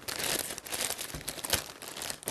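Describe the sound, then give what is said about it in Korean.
Sturdy plastic water bag being handled, giving continuous, dense crinkling and rustling with small irregular crackles throughout. No one speaks over it. “이제 집에서 흔히 사용하시는 그런 위생 비닐봉지를 쓰셔도 좋고 이렇게 조금 더 탄탄한 비닐의 물주머니를 사용하시면 되는데요.”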